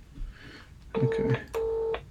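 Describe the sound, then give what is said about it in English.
Telephone keypad tones sound as a number is dialed to call someone: a few clear, steady electronic beeps in short bursts, with no talk. “Let's see if I can just phone him.”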